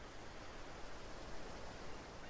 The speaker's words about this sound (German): Und es tut gut, für einen Moment diesen Raum von Zeitlosigkeit, des ewigen Kommens und Gehens dieser Wellen